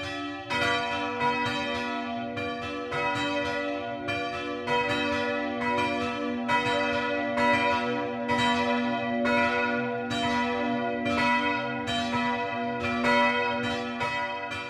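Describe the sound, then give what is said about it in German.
Midday bells ring from the broad tower of a young Catholic parish church of unplastered sandstone in a small village in the Franconian Rhön. Many overlapping strikes fall in a steady rhythm over a sustained, humming tone. “Das Mittagsläuten kommt heute aus Speicherz, einem kleinen Dorf in der fränkischen Rhön, nahe der Grenze zu Hessen.”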